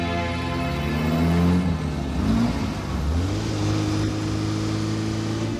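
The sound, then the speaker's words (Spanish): A red convertible Ferrari drives along a street, its engine revving loudly with pitch rising, dipping and climbing again, heard alone without voices. “En la calle conduciendo el flamante Ferrari rojo descapotable.”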